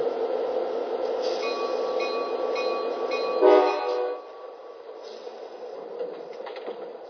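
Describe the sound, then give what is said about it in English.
A Capitol Corridor passenger train from San Jose arrives on track 2 at Richmond station, its steady rolling rumble carrying sustained horn-like tones that swell to a brief louder peak midway before the noise settles lower. “arriving from San Jose on track 2, the Capital Corridor.”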